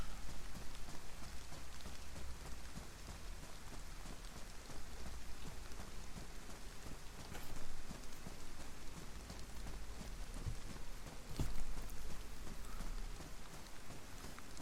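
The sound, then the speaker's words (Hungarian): Pouring rain in a console video game at sunset: a faint, steady hiss of falling water with a dense patter of drops, continuing evenly throughout with no voices. “Megy le a nap, szakad az eső, a lehető legpocsékabb szituációban vagyok ilyen szempontból”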